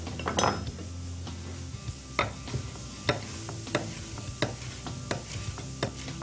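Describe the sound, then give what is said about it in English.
A sauce heats in a pan with a soft, steady sizzle while a utensil stirs it. Several sharp metallic clinks against the pan ring out at irregular intervals over the low bubbling. “So we're going to bring the heat up on this sauce just a bit to get her going.”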